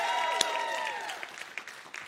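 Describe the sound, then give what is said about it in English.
A church audience in Bangor applauding during a service. The applause is steady at first with a held tone fading beneath it, then thins out to a few scattered claps. “Come on, Bangor. Let's give it up for Old Town.”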